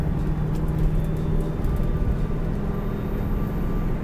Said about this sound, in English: Oh, I'm already in fifth gear. I'm not used to vehicles winding this high.